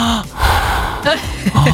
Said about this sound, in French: Si j'ai la bouche grande ouverte et que j'ai plutôt tendance à dormir en respirant comme ceci.